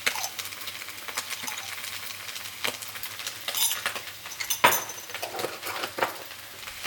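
Spoon stirring ginger paste into a pot of red Thai peanut curry, a steady run of light metallic clicks and scrapes against the pot, with no voices.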